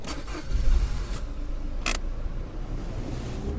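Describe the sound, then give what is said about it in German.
A car driving off, its engine giving a steady low rumble that swells briefly early on, with a couple of short sharp noises over the continuous hum. “Fahren wir nach Katovermio.”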